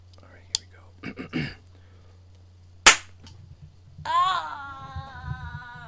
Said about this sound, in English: I know it looks like an ordinary cap gun, but I hope that if I shoot it in his direction, it'll scare him enough to give him a heart attack.